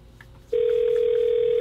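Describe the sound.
Steady telephone dial tone while a listener is called: after a brief quiet moment the tone starts abruptly and holds loud and unbroken, no voices.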